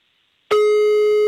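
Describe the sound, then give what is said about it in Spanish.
Ringing tone of a phone call being dialed: after a moment of near silence, a loud, steady electronic tone starts abruptly and holds unbroken to the end. “Ya le estoy marcando, ¿eh?”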